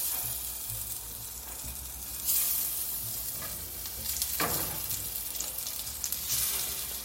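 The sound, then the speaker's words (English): Sizzling from six breaded croquettes frying in oil in a skillet: a steady crackling hiss that swells in a few brief surges and stays fairly loud throughout. “So I'm going to get my 6 croquettes and I'm going to load them up.”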